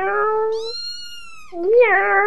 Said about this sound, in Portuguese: Ai, que fofo esses gatinhos.